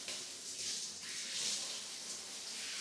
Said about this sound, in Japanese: しっかり泡を落としますよ。きれいに流します。